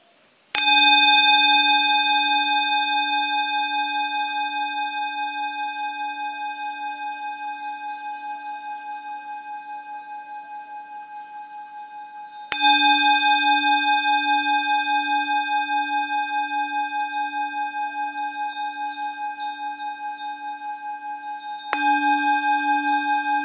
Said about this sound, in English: First, close your eyes and just pay attention to the sound of the bell.